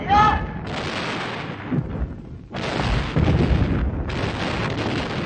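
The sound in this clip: Artillery fires in battle as infantry begins a charge. A few heavy rumbling blasts run into a dense, continuous roar, and a brief voice is heard at the very start.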